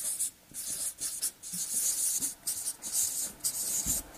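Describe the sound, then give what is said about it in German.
Writing on a board: many scratchy strokes in a quick, uneven rhythm, broken by a few brief pauses, fairly loud and alone. “So, ich schreibe mal Zivilgesellschaft hin.”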